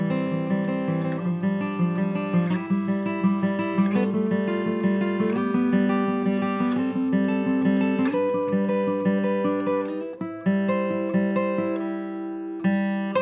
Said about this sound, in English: You can do it across a series of kind of harmonized scales. It would sound like this.